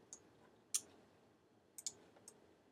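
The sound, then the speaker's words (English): A computer mouse clicks while edges are selected in SketchUp: a few sharp, faint clicks spaced apart, including one quick double click, with near silence between them. “And using that double click, I'm just going to go around to all the edges and double click.”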